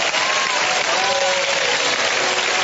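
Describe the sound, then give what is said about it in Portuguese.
A church audience claps hands in praise during a worship service, a dense, loud and continuous wash of clapping that holds steady from start to finish. “Podem louvar a Deus com palmas.”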